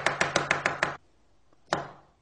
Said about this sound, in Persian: تا روغن من گرم میشه من کلمهای بروکلی رو خرد میکنم، میره کنار.